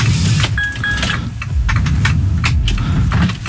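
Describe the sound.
Car engine running during a hill start, a steady low rumble with a faint high whine and a few brief clicks, no voices.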